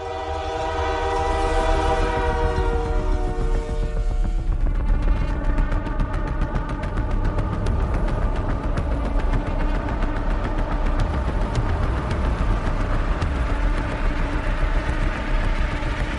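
A train horn blares in a loud, sustained, steady tone over the continuous rumble and clatter of the moving train, persisting across the whole stretch.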